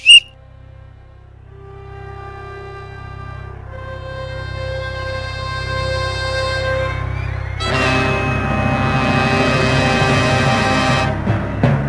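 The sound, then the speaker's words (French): A melody played on a whistle: sustained, reedy tones step through a tune over a low steady drone, then fuller, louder music joins for the last few seconds. “est-ce qu'on peut amener la mélopée? Ben moi, je te le dis que si sur le sifflet, la mélopée n'arrive pas, on arrête l'émission sur ce tas d'incompétence.”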